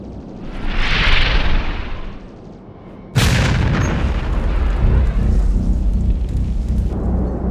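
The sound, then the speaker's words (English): A Class X Kogan torpedo explodes in a direct hit on a missile leader during a battle: a rushing whoosh swells and fades, then one sudden loud blast breaks into a sustained, heavy rumbling roar that holds to the end. “A Class X Kogan torpedo! It's going after our missile leader!”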